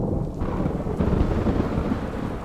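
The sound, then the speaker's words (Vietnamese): A thunderstorm with heavy rain and thunder: a dense, steady low rumble rolls beneath a constant hiss of pouring rain, loud throughout with no separate sharp claps. “Bên ngoài trời đã đổ mưa, những tia sét cứ đì đùng giáng xuống, lập lòe như muốn xé nát cả bầu trời.”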